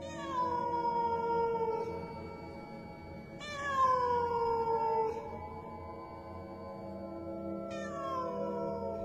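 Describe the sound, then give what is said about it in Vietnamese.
A cat meows loudly behind the house: three long, drawn-out yowls, each starting high and sliding down in pitch, spaced a few seconds apart over faint background noise. “Bất thình lình, lúc này thì ngay phía sau nhà gần lắm, tiếng mèo lại kêu như muốn dọn cả người.”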